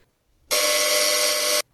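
A doorbell at a front door buzzes once: a single loud, steady, harsh buzz lasting about a second, starting and stopping abruptly, heard alone.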